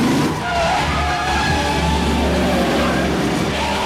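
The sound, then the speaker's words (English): A vehicle swerving at speed into oncoming traffic in a tunnel, a loud continuous engine roar with squealing tire tones and rushing noise throughout, no talk. “Seeing traffic in the tunnel up ahead, he rapidly changes to the other lane, driving into the flow of cars.”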